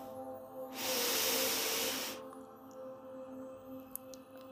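One long exhaled breath during a guided breathing exercise, a soft, airy hiss that swells and fades over about a second and a half, set over quiet sustained musical tones.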